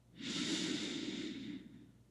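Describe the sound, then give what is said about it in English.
A person draws one long, deep inhale during a breathing exercise. The breath is a soft, airy rush that starts abruptly, holds steady for over a second, then fades out quietly. “Let's hold in this empty space for just a moment. And now inhale for 3.”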